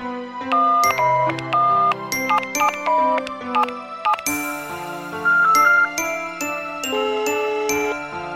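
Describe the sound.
A melodic ringing tune, like a phone's ringback while a call to someone goes through, plays alone as bright chiming notes in short repeated phrases, shifting to a new phrase partway through.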